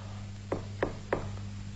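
Three evenly spaced knocks on a door, crisp and moderately loud, over a low steady hum.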